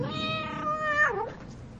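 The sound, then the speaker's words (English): A cat meows once in a single drawn-out, clear harmonic call whose pitch bends downward near the end, then fades into quiet. “katse e bidiwang Kitty”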